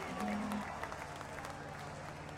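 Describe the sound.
Faint, steady audience applause and crowd noise at a concert, a continuous wash of clapping throughout.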